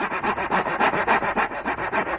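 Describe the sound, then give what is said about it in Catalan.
A saw cuts through tree wood while trees are felled for firewood. Many steady back-and-forth rasping strokes repeat in an even rhythm, loud and with no voices. “Es posa a tallar arbres sense descans.”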